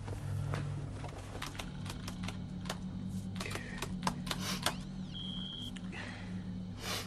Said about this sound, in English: sits in his room, tapping at the keyboard